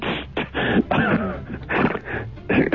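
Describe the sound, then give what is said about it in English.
Throat clearing thick with phlegm: several rough, gurgling, voiced rasps in quick succession, loud and with a narrow, phone-like tone. “Oh, blimey, that was like a little sort of a phlegm blowback there. That was disgusting.”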